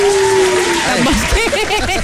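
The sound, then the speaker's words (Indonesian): Audience clapping at a Malay-language talk on buying branded, quality goods. The clapping is loud and mixed with voices and some chuckling. “Tepuk lah.”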